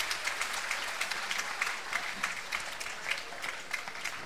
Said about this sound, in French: On les applaudit tous très fort, s'il vous plaît. Tous.